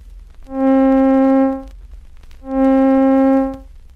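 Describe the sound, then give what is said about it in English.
A middle C tone sounds twice, each note swelling in slowly, holding steady for about a second, then fading gradually, with a smooth, organ-like harmonic timbre and a pause between. “Taking the same note with which we have been working, the middle C, we find that slow growth, long duration, and slow decay give it a sound like this.”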